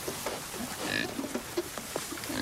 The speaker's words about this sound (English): Piglets root around in their sty.